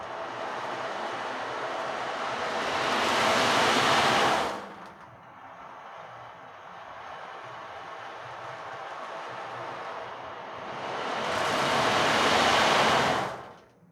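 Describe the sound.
An ocean drum played during a meditation, its rolling beads imitating surf: two long, loud swells of hissing wash separated by a softer, sustained rolling stretch, with no voices.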